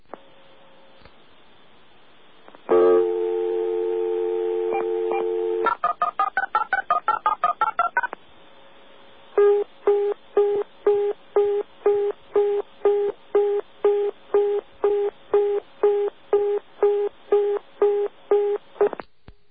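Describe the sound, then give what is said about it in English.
Telephone dialing to Sweden: a steady tone, then a quick run of dialing tones, followed almost immediately by a fast, regularly pulsing busy signal with many short beeps. “Now, listen carefully to the dialing. Listen to the last digit of the dialing and notice the speed with which we get their particular busy signal.”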